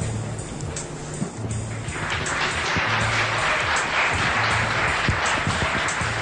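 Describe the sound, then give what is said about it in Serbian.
Audience applause that starts thin, then swells after about two seconds into a dense, even wash of clapping that carries on steadily, with a low intermittent hum running underneath. “Hvala vam lepo i za prvi aplauz i za drugi i za treći.”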